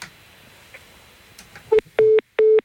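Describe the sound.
Telephone tones signal an incoming call from a listener: a brief blip, then two longer, steady mid-pitched bursts with a short gap between them. They rise loud and clear over a faint, noisy background.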